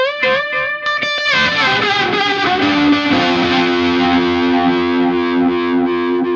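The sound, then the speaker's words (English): Distorted electric guitar runs through an effects pedal with a speed control for a Hendrix-style tone: a few quick strummed chords, then a loud, long sustained note with a wavering, swirling modulation that continues steadily. “This one is a speed control. So. Yeah. Which is actually very useful. So this is the Hendrix kind of sound.”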